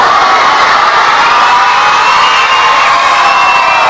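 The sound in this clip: A team of people shouting as loud as they can, one loud, sustained roar of massed voices that keeps going without a break.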